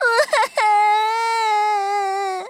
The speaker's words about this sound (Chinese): 米米别哭，我们会帮你想办法的。